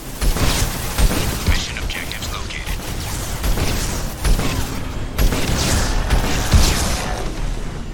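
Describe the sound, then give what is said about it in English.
A Hammerhead hover tank's fast-shooting rocket launcher fires during a video game battle against Geth, with many sharp booms and cracks in quick succession over a steady mechanical rumble. “So we're fighting some Geth, and we're in a Hammerhead. So we got this fast-shooting rocket launcher.”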